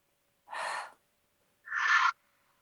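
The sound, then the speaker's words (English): Deep breaths exhaled audibly through an open mouth during a guided breathing exercise. Two breathy rushes of air, each about half a second long, are separated by silence. “we breathe deeply in through the nose and we exhale audibly through the mouth. So we can do it together. Breathe in with me. Open mouth, exhale.”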